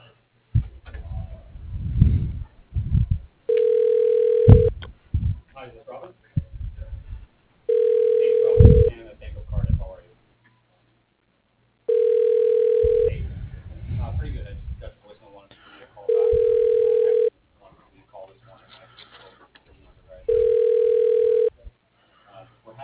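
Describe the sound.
Telephone line tone heard while a call is being transferred. Five steady, evenly spaced beeps of the same pitch sound, with muffled noises between them.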